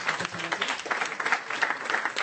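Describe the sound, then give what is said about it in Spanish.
Audience applause for a guest at the close of a talk show: dense, steady clapping that runs the whole length at a fairly loud, even level, with no clear talk over it. “Por favor, me gustaría pedir un aplauso a Chicken Master, que no tiene por qué hacer esto.”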